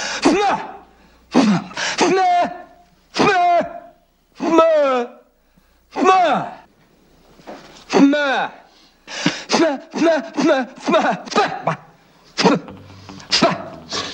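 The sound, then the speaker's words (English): A person strains to clear blocked ears by building pressure in the head, producing many short, squeaky grunts and moans with bending pitch, in bursts separated by brief pauses. “I'm trying to clear up my ears. You create a pressure inside your head. It opens up the eustachian tube.”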